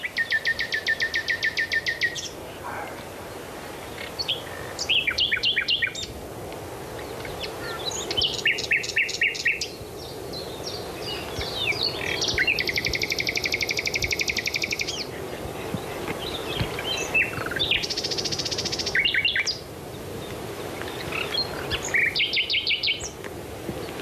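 Male birds in spring whistle long calls in several separate bursts of high, trilling whistles, spaced a few seconds apart over a low, steady background hum.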